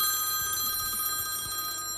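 A telephone rings at home, a steady, shrill ringing tone that holds throughout the short moment with no voices.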